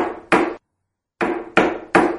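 Knocking on a wooden door: heavy, hollow raps heard alone, one knock, a pause, then three more in quick, even succession.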